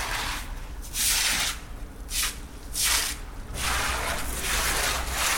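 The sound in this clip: A broom sweeps a wet street while water runs from a street water hydrant. A few rhythmic swishing strokes rise and fall over a constant hiss of flowing water.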